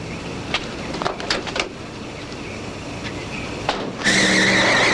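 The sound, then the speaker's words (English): Tires squeal as a car screeches to a halt: a loud, sustained high screech rises sharply near the end over steady road noise, after a few brief scraping sounds earlier. “It screeches to a halt in front of them.”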